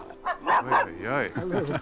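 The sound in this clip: Three dogs barking and yipping at a home as visitors are greeted: several loud barks, then higher whining yelps, with voices mixed in.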